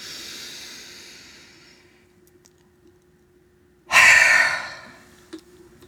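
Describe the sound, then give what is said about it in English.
Deep breathing during a relaxation exercise: a long, soft, airy exhale fades out, then after a quiet pause comes a sudden loud, breathy rush of air that tapers off, over a low steady hum. “Nice inhale. And drop your breath. And again, inhale.”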